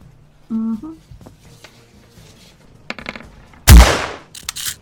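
Gunshots, two fired at once, ring out during a role-playing game about firearms. One loud, sharp blast bursts near the end and trails off, with a fainter crack shortly before it.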